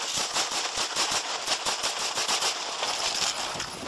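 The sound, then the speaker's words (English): Rapid gunfire erupts during a police confrontation with a suspect held at gunpoint: many sharp shots follow in a fast, loud, continuous burst for about four seconds, with no voices. “14-24, I got shots fired. The officers are okay.”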